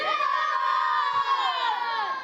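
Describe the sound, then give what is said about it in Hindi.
A crowd chants the slogan Dawat-e-Islami in unison, a sustained, drawn-out chorus of many voices holding steady tones with no pauses. “नारा लगाएंगे दावत इस्लामी।”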